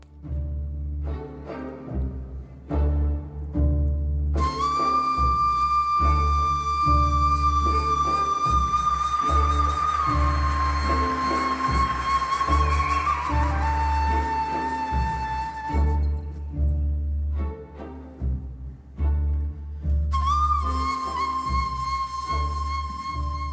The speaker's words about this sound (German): Das ist also die Nai, diese Flöte, von der wir schon gesprochen haben.